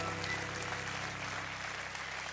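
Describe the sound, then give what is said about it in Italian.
Applause marking Women's Day in Italy, a steady, moderately quiet spread of clapping that keeps an even level throughout. “Oggi è la festa delle donne. Un bel applauso, scusate.”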